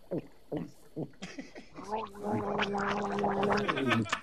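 Someone drinks down a shot of a strong liquid. A few short throaty sounds come first, then a long, loud bubbling gargle and gurgle that carries a steady tone to the end.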